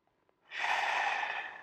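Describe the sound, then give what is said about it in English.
A slow, deep breath drawn in through the nose, taken as a calming exercise. Brief quiet gives way to one long, steady, airy inhalation that holds its strength to the end. “do some slow, deep breaths, concentrating on your breathing, in through your nose and out through your mouth. Like this. Breathe in”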